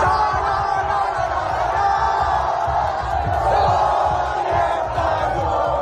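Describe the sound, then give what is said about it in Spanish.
Crowds cheering and chanting in the squares and streets of the Murcia region, celebrating Spain's World Cup win over Argentina in extra time; a dense, continuous roar of many voices, loud and steady throughout. “Es la euforia vivida en plazas y calles de toda la comunidad por la nueva hazaña de La Roja que se hace con su segunda estrella mundialista tras vencer a Argentina en la prórroga.”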